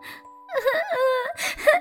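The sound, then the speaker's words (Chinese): A tired, hungry mouse cries in a children's story, heard as two wavering, whimpering wails with bending pitch, separated by a short pause and preceded by a faint tone. “洞里什么都没有，又累又饿的老鼠伤心的哭了。”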